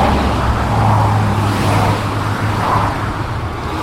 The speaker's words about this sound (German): Wir haben hier ein paar Sekunden Lärm bei einer Autobahn ohne Lärmschutzwand. Das tönt so.